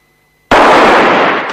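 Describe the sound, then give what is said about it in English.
Two guns fired at the same instant in a street shootout by a wooden sidewalk merge into one sudden, loud blast that breaks a near silence and rings out with a long, slowly fading tail. “Both men shoot at the same time”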